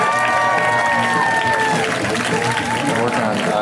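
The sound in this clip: An audience claps and cheers loudly as a stand-up comic is called to the stage, sustained applause with whoops and shouted voices rising over it.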